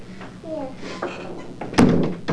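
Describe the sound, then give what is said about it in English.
A door swings shut with a single solid thud near the end. A voice speaks before it, over soft rustling. “Let's close the door.”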